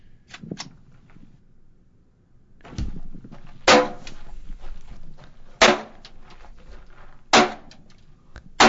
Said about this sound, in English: I've never fired this before, so hopefully it won't explode and kill me.